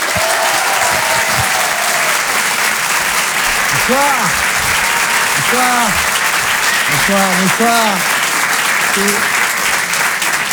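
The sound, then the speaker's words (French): An audience applauds a comedian at a comedy and song show. Loud, steady clapping fills the whole clip, and a few short vocal cheers rise above it. “On peut l'applaudir très très fort, Elias Zoglani. Bravo Elias.”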